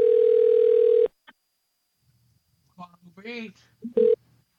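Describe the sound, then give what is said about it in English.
A steady telephone dial tone lasts about a second, then breaks off. A short blip follows, then a brief voice, and a single touch-tone dialing beep near the end. “Oh, I'm making a phone call.”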